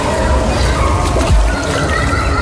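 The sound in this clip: Churning water splashes as a child dives in, a loud, continuous wash of sloshing water with a heavier surge just past the midpoint.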